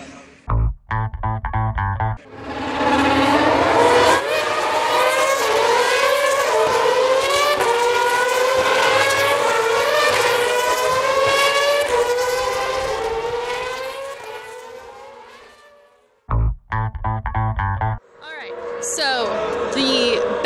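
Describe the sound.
Race cars passing at a track, a loud sustained engine howl that holds for many seconds, then fades away, framed by brief clipped bursts of other sound at the start and end.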